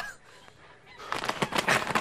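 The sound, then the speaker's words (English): Geese being fattened for market honk in a rapid run of loud, harsh nasal calls that burst out after a quiet opening second. “I sat there, looking at the geese that my sister fattens up for the market”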